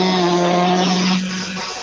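A race car engine revs at the start of a race, holding a loud, steady, harmonic drone that eases slightly toward the end.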